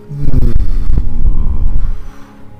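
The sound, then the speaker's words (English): Low humming, loud and deep with a throbbing, pulsing texture that holds steady and then drops away near the end, with no voices. “the lights start to fade in and out and glow and gently fade and subside. And the humming.”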